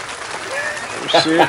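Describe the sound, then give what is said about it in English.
Recorded crowd applause played from a soundboard, a brief, loud burst of clapping with voices talking over it. “And we got a couple of little sound effects. You know what I'm saying? Give me a round of applause right fast.”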